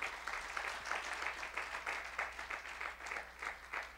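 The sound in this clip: A church audience applauds during a service: steady, dense clapping from many hands, sustained at an even level throughout with no talk over it.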